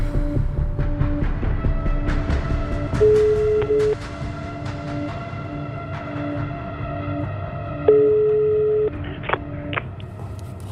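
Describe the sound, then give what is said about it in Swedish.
Phone ringback tone after a voice assistant places a call: two long, steady beeps about five seconds apart over a continuous low background hum. “Siri? Ring Kenneth.”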